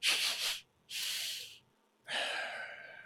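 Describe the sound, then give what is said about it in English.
A voice imitates someone sniffing around with three loud, breathy nasal sniffs, each separated by a short pause, and nothing else heard. “Holden's definitely going to like take a sniff around. He's going to like,”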